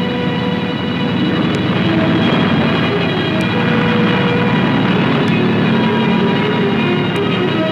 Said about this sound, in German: Kader der deutschen Luftwaffe starten zum ersten Feindflug. Stukas.